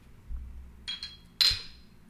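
Glasses clinking in a toast: a few light, bright clinks in quick succession, with the last one the loudest, and no talking over them.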